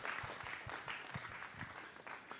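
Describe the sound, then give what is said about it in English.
Church audience applauding after a prayer: a fairly faint, continuous wash of many hands clapping at once, even in level from start to finish. “Come on, church, if you believe that today, could you give them the biggest, biggest clap?”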